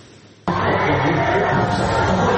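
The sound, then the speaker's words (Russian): Loud crowd roar from far-right National Rally supporters cheering for leader Marine Le Pen. It bursts in abruptly after a brief quieter moment and holds as a dense, sustained wall of shouting and cheering. “Вот так сторонники французской ультраправой партии «Национальное объединение» приветствуют своего лидера Марин Ле Пен.”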